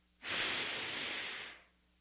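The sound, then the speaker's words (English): A single forceful exhalation through the nose during a breathing exercise: a loud, breathy rush of air that holds steady for over a second, then tapers off, heard alone with no voices. “And it's more forceful exhalation.”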